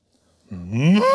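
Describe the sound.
A cow gives a single short moo, a voiced low call that swells and rises in pitch, heard alone after a moment of silence.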